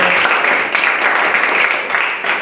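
An audience applauds for two guests being welcomed at a live event, a dense, steady wash of clapping that stays loud and even for the whole stretch.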